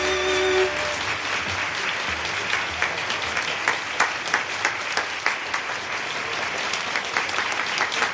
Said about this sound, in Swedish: Ja, de applåderna till Evert Taube kan man väl gärna instämma i. Här var det Nocturne han framförde själv.